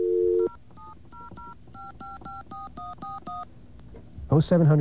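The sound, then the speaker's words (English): A number dialed on a touch-tone telephone: a brief steady tone, then a quick run of many crisp two-note beeps in an even rhythm, followed by a voice answering on the line at the end. “If you dial, hopefully this isn't blocked.”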